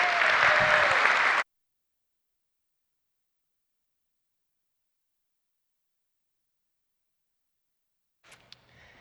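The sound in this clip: Loud audience applause welcoming a guest speaker at a church gathering. The clapping lasts about a second and a half, then gives way to silence, with a faint brief sound near the end.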